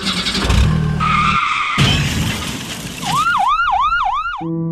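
A car pulls away with a harsh screech of skidding tyres over engine noise. A warbling siren then sweeps up and down several times in quick cycles.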